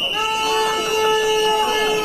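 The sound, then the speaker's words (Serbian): Whistles and horns blare from a workers' protest march with a column of marchers, layered into steady, sustained high tones that overlap continuously throughout. “formirali su kolonu i sa pištama i trubama se uputili ka parku Mladen Stojanović”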